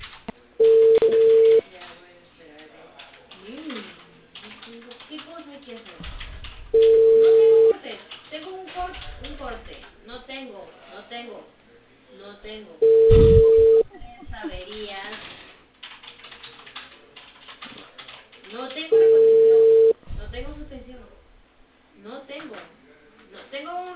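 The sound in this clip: A telephone call rings on a narrow phone line: four steady, evenly spaced ringback tones, each lasting over a second. Voices talk in the gaps between the rings.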